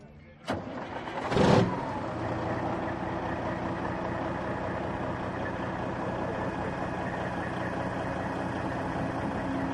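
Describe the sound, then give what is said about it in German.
A vintage American Kenworth show truck with a 500 hp, 12.7-litre engine starts at a truck meeting. A sharp click comes first, then a loud surge as the engine catches, settling into a steady, rumbling idle. “Was haben wir denn jetzt hier hinter uns stehen? Das ist ein Kenworth aus den USA, hat 500 PS.”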